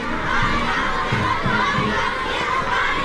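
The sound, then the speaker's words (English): Dozens of children chant a welcome for a visiting US president while jumping and waving flags, a sustained, high-pitched mass of young voices shouting together in a loud, continuous crowd sound. “dozens of children welcoming President Trump, chanting a welcome while holding artificial flowers and American and Chinese flags.”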